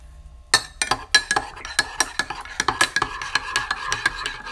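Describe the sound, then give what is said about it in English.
A spoon stirs a steeping drink in a cup, making many bright metallic clinks in a quick, uneven rhythm against the cup's side. The clinks are fairly quiet and come without any talk. “Give it that nice stir. Ooh, let that steep for a little bit,”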